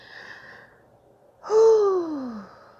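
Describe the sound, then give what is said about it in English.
A deep breath, heard as one loud, sighing exhale with a voiced tone that slides downward in pitch and trails off, with no talk over it. “Take a deep breath with me, guys. Let's take this deep breath, okay?”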